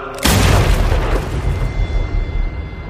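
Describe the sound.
A grenade explosion in a war radio drama: a single sudden, loud blast that hits all at once, then a long rumbling, hissing decay that slowly fades, with no voices.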